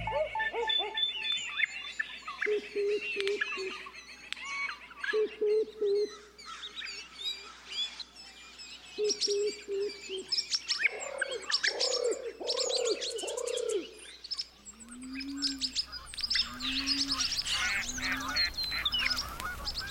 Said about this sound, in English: Barred owls are still hooting in the swamp behind us.